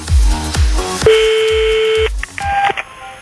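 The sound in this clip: Telephone dialing for a call: a long steady electronic tone, then a few short dial beeps, all over background music.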